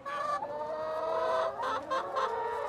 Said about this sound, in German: Eine große Schar Hühner wärmt die Luft unter der Plane und die Pflanzen in einem abgetrennten Teil der zeltartigen Konstruktion.